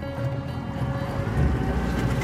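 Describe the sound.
Boat speeding through water toward a river mouth, with spray splashing: a steady, dense rush of water and wind over a low engine drone, slightly louder toward the end, with no voices.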